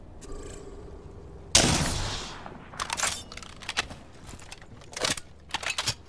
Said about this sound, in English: Firing. I'm taking fire.